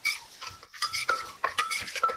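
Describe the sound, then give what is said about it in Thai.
A pestle pounds salted egg papaya salad in a mortar to mix the ingredients. Many quick, rhythmic knocks and clatters are mixed with wet sloshing, and there are no voices. “ก็จะตำให้เครื่องเข้ากัน”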